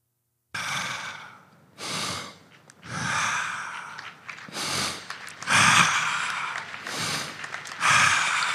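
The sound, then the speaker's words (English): A man takes deep breaths after a healing, a series of about seven loud, airy inhales and exhales with short pauses between them, and no talk. “That is a brother taking a deep breath. This was what was totally impossible for him before he received that healing”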